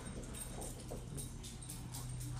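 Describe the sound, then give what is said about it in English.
A dog whimpers faintly, with a thin, low whining tone drifting under a constant hiss of background noise. “podcast has been hijacked by a dog”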